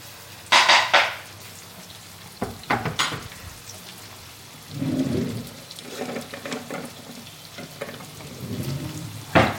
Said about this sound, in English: So give these a fry. Once they've softened a little, then add some seasoning.